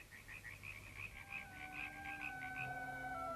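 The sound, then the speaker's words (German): Sacred frogs croak from a nearby temple pond in a faint chorus, with quick, regular rhythmic pulses repeating many times. “Draußen vor dem offenen Fenster fächert der Wind die Zypressen und vom nahen Tempelteiche quaken wie gewohnt die heiligen Frösche.”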